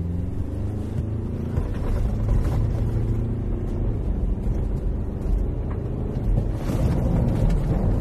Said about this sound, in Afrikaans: Ek het hom op 'n grondpad gery. Hier is 'n voluit wegtrek en stop.